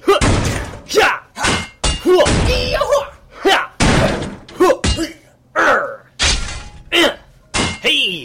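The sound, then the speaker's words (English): A shovel strikes a shiny metal saucer-shaped object in a series of heavy, hard thuds and bangs at an uneven rhythm. Voices can be heard between the blows. “Yeah, it is shiny. Here, hit it with your shovel.”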